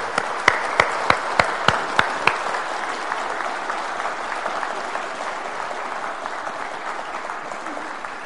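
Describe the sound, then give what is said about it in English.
Congregation applauding during a church service: a run of about seven sharp, evenly spaced claps opens, then merges into a steady, dense clapping that continues for the rest. “So we're going to express our thanks to Harry and Trudy and to the men with a round of applause”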